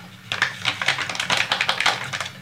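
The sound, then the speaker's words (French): Quick clicking of a fork whisking four egg yolks with grated parmesan, a dense run of many light, sharp taps that keep a steady, busy rhythm. “Voilà, je fouette à la fourchette, au fouet, au fond, vous voulez. Il faut y mélanger.”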